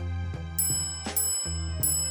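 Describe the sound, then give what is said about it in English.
A hotel front desk bell struck several times: bright metallic dings ring out in a few separate strikes over a steady low droning tone. “No one is at the front desk, so the woman starts to hit the front desk bell.”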